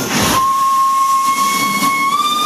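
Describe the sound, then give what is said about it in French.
Steam whistle and hissing steam from a coal-fired steam train setting off: a loud, continuous hiss, stronger at first, carries a steady whistle tone whose pitch edges slightly upward, with no voices. “Le train s'est élancé.”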